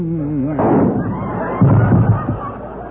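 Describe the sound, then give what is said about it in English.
Gunshot sound effects in a radio comedy: a singing voice with vibrato is cut short by a sharp blast, followed about a second later by a second loud burst. “Who plugged Nelson Eddy? Who shot him between his all and his nothing at all?”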